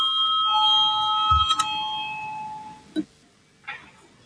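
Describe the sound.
An electric voting bell rings in the Latvian parliament, a bright sustained ringing that lasts about two seconds before cutting off. A few soft thumps follow.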